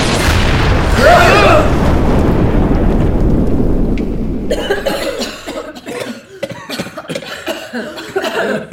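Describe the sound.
Harsh coughing from too much smoke, several loud rough bursts over a deep booming rumble in the first few seconds, then fading as people begin talking.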